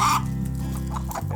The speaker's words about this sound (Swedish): Nu är han ju definitivt uppe på en höna där borta, tuppen i alla fall.